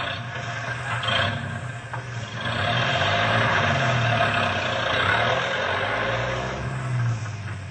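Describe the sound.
A truck engine rumbles low as the vehicle drives slowly away from a ranch barn, a steady deep drone that swells slightly midway and runs on without voices.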